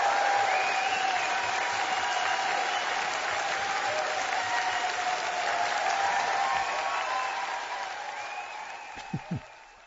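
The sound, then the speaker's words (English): Audience applause after a live folk concert song at St. George's Hall: dense, steady clapping that holds for several seconds, then gradually fades. “Well, it sounds as though the audience enjoyed that somewhat.”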